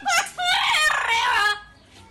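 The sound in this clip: Rooster crowing: a short bright call, then a longer drawn-out crow lasting about a second, high and loud, before trailing into quiet.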